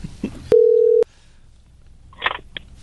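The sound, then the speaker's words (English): Telephone tones while someone dials a phone: a steady mid-pitched beep of about half a second, then a short pause and a brief cluster of higher electronic tones followed by one short blip. “You dialed with your tongue out like Michael Jordan going for a layup.”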